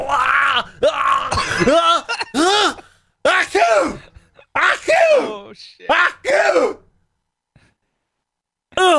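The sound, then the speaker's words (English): A man's voice imitates another man sneezing: many loud, strained, groaning bursts with sharp breathy gasps between them, fading to quiet near the end. “he's sneezing”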